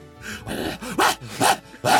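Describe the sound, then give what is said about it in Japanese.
A voice imitates the barking of a large Tosa dog with several short, harsh, voiced barks in an uneven rhythm, each a loud burst separated by brief gaps. “T さんの家は巨大な土佐犬を飼っていて、毎日顔を合わせれば狂ったように吠えてきます”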